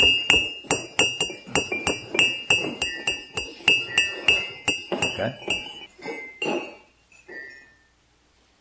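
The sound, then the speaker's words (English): A cup is tapped in place without being lifted, giving many quick, bright ringing clinks in a fairly regular rhythm that slow to a few scattered taps before fading out, with a voice speaking briefly. “reach over, and if you can, tap your cup without picking it up. Just tap it so it makes a sound.”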